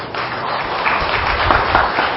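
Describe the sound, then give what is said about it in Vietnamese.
Audience applause during a Buddhist sermon, a loud, dense burst of many hands clapping continuously through the short stretch. “Vỗ tay là được hay không?”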